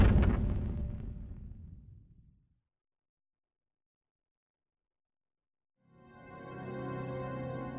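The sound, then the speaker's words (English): A deep grenade blast rumbles and fades over about two seconds. Silence follows, then a steady harmonic tone swells in. “The last thing Riker heard was his own warning shout. Grenades!”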